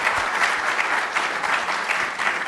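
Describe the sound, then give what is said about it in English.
Applause greets a guest speaker as he comes to the podium for a science lecture. It is a brief, steady patter of many hands clapping at an even level. “Please join me in welcoming to the Distinctive Voices podium, Dr. Kevin Peter Hand.”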